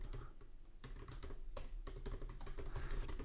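Fast typing on a computer keyboard: a faint, steady clatter of many quick keystrokes, broken by a few brief pauses. No voices.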